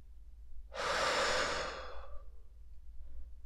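A single deep, slow inhale during a guided meditation, a soft breathy rush that swells for a little over a second and then fades into near silence.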